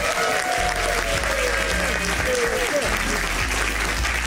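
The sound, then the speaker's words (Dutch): A studio audience at a news quiz applauds: steady, dense clapping holds at an even, loud level throughout, with no break or build. “Applaus, dames en heren.”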